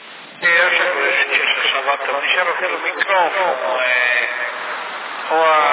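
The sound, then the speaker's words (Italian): CB radio voice transmission through the set's built-in echo effect, sent using an ordinary microphone: a narrow, band-limited voice talks steadily with a slight reverberant tail, ending in a short louder burst. “Ho messo in questo apparecchio un microfono normale, sto usando l'eco dell'apparecchio, ma non va, non mi piace per quello microfonico.”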